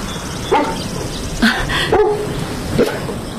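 A dog barks four times in separate, well-spaced bursts, each one sharp and fairly loud, with quiet background between them and no talking.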